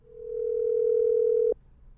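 A telephone dial tone plays while a call is placed: one steady, unbroken tone that swells slightly, holds, then cuts off abruptly, leaving faint background hiss.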